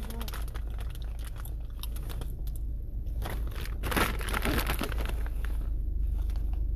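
Someone chews a crunchy snack that tastes like corn on the cob and has a popcorn texture. Crisp, irregular crunches repeat for nearly seven seconds over a low, steady hum.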